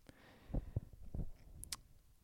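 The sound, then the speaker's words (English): Keystrokes from someone typing with one hand: a few faint, irregular clicks spaced apart, sharp and brief, with nothing else over them. “I'm typing with one hand here.”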